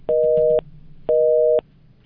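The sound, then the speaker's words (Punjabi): A telephone busy tone sounds after a call is cut off: two loud, steady electronic beeps of about half a second each, separated by a brief pause, over a faint low hum. “ਕਾਲ ਕੱਟ ਹੋ ਗਈ ਆ ਤੇ ਅਗਲੀ ਕਾਲ ਤੇ ਜਾਂਦੇ ਹਾਂ।”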